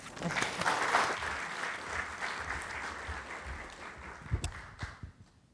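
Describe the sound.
Audience applause welcomes a speaker at a museum talk. Full, steady clapping swells early, then thins toward the end.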